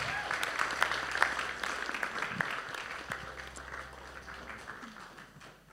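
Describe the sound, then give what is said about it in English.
An audience claps to welcome a guest speaker. The applause is a steady patter of many hands at moderate volume and thins out gradually toward the end. “Nii et kas me võiksime tervitada teda aplausiga?”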